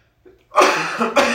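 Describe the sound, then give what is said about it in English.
A person coughs hard twice in quick succession, loud and raspy, after a faint breathy sound at the start. “No, it's not a song. I just can't stop coughing.”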